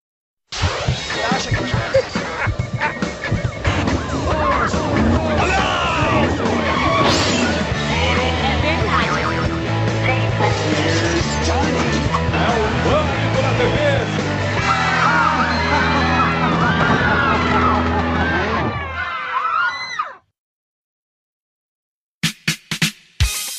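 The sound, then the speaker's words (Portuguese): A loud, dense musical jingle for the Pânico na TV show, packed with shouting and whooping voices, plays steadily for about nineteen seconds, cuts off, then a few brief bursts follow. “Hoje, pânico na TV tem que ter vinheta. Figurante, tem vinheta hoje? Já sei a resposta. Claro, claro, roda a vinheta.”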